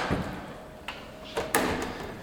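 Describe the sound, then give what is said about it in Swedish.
A door opens in a theatre, backstage near the stage, with a few sharp clunks and knocks from the handle and frame over a low rumble, the last knock the loudest. “Vi tar den närmsta dörren.”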